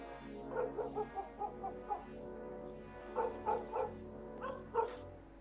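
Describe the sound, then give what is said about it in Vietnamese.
A stray dog barks fiercely, many quick, faint barks in rapid bursts, two clusters separated by a brief pause, with no voices. “Con chó sù lông lên, bắt đầu sủa dữ dội.”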